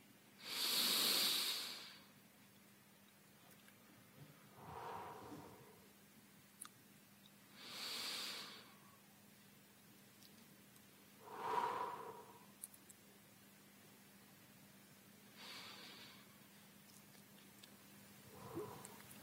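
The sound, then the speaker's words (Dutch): Slow breathing in and out during a calm breathing exercise, three unhurried cycles of airy, hissing inhales and softer exhales separated by quiet pauses, with no talking. “En we kunnen een paar keer samen inademen. En uit. Dat zullen we dan ook 3 keer doen.”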